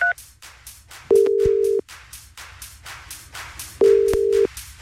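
A telephone ringing tone plays as a radio host calls a listener: two long, steady low beeps a few seconds apart, preceded by a brief higher blip, over faint background noise.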